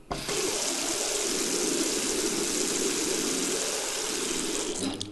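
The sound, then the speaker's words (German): Splashing water rushes in a steady, loud, continuous stream for about five seconds, with no voices or other sounds. “Das war das Geräusch vom Wasserplätschern.”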